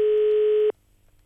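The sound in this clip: A telephone tone as a call is placed: one steady, unbroken electronic beep lasting under a second, then near silence.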